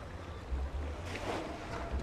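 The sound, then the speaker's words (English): Water laps at Hyde Street Pier in San Francisco, near the old paddle steamboat Eureka bobbing in shallow water. The sound is a faint, low, continuous wash with some wind noise. “It's a brisk Sunday afternoon at Hyde Street Pier in San Francisco. Just past the edge of the dock, an old paddle steamboat called the Eureka bobs in the shallow water.”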